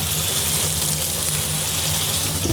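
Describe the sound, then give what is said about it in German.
Water running in a small kitchen, a continuous even gushing hiss at a steady moderate level throughout, with no talking. “ein bisschen Wasserrauschen.”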